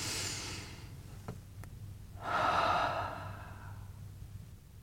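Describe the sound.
A single slow, soft breath taken during a guided meditation: a smooth, airy rush that swells and fades over about a second, alone, with no talk.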